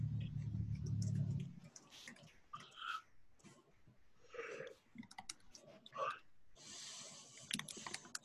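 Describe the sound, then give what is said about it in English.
Computer keyboard typing gives off irregular clusters of quick plastic clicks, with people talking over and between the keystrokes. “Oh my gosh, I can't type today.”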